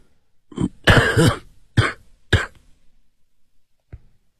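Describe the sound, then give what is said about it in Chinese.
A man bent over coughs a few times in quick succession, each cough a harsh, loud burst, followed by quiet and a faint brief click. “他弯腰咳嗽了两声”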